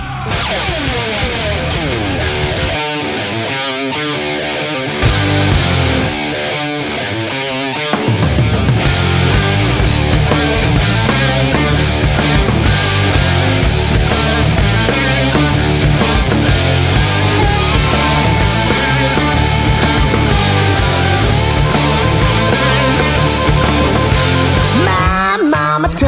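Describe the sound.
Hard rock song with loud electric guitars, bass and drums. A sparser opening with a brief drop-out gives way to the full band, which drives on at a steady, loud level, with no speech over it.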